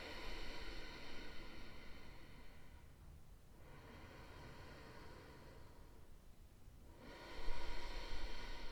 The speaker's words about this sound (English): Close your lips, breathe in through the nose, out through your nose.